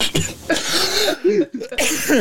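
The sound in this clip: A person coughs while trying to hold it back, giving rough, stifled bursts mixed in with people talking.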